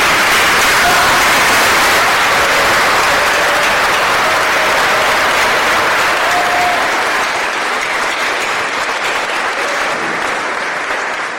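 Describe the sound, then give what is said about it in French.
A standing ovation from an audience, with loud, dense applause from many people clapping together in a continuous roar that eases off slightly toward the end. “je vais vous demander de vous mettre debout et de faire une ovation spéciale pour Mika, s'il vous plaît”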